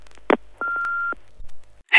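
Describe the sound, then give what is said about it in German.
Answering machine message playback starting: a short electronic beep, then a steady held tone with a few clicks over it, a few low soft thumps, and the start of another sound at the end. “Unser Anrufbeantworter blinkt und hat etwas für uns.”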